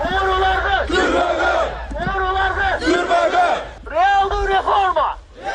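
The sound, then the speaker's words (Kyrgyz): A protest crowd on Ala-Too Square chants anti-corruption demands, many voices shouting short phrases together in a loud, regular cadence, each burst followed by a brief gap before the next. “Акциянын катышуучулары Райым камалсын, уурулардын орду түрмөдө, реакция, реалдуу реформалар жүргүзүлсүн деген талаптарды коюшту.”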